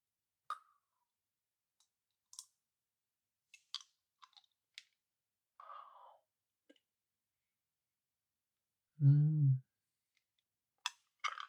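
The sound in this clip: Crisp mouth clicks and small crunches from eating a sweet candy that slowly melts. Scattered sharp ticks surround a short, softer crunching patch in the middle, with a brief low hummed murmur near the end.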